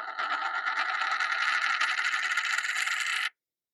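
A coin spins on a tabletop with the microphone held right up to it, making a continuous bright, rattling whir that stays even for about three seconds and then cuts off abruptly into silence.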